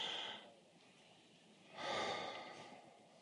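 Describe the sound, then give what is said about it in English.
Two soft, faint breaths: a short one at the start, then a longer, fuller one about midway, taken as a deep breath in and out. “So now, let's take a deep breath. Really.”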